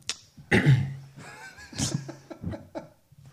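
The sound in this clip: Rough throat-clearing coughs from a man with something caught in his throat, a few harsh bursts with raspy voiced sounds between them.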